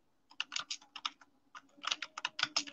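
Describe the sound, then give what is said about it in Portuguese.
Rapid typing on a computer keyboard into an online chat: two bursts of many crisp clicks separated by a short pause, over a faint low hum. “Eu estou escrevendo isso lá no chat.”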